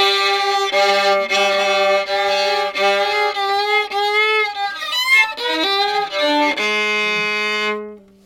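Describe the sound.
Experimental fiddle music imagined as a Sasquatch fiddle player's tune, loud bowed notes with sliding, wavering pitches and a few sustained tones, played alone and cut off abruptly at the end.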